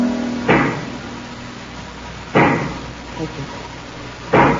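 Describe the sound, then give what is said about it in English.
Heavy knocking from a giant pick: three loud, dull blows spaced roughly two seconds apart, each with a short thudding decay, over a faint low hum. “do you hear that knocking? I sure do. That is the sound of a giant pick.”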